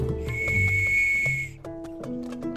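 A person whistles while approaching with a bucket of water: one steady, high whistled note holds for about a second and a half, then a few shorter, lower notes follow.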